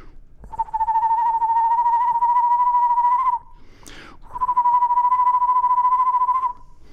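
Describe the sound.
A person whistles to imitate a bird call often heard in a backyard, giving two long, steady, clear tones of about three seconds each. A brief breathy noise separates them.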